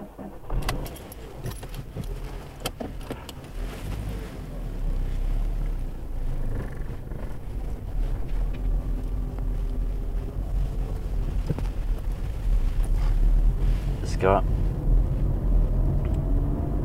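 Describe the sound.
A car pulls away and drives off from just outside Vollsjö, its low engine and road rumble running steadily through the whole stretch and growing somewhat louder after the first few seconds, with no talking.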